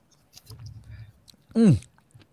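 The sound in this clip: Mangosteen fruit is chewed: soft, moist, low munching sounds in an uneven patter, then a brief, louder voiced sound near the end.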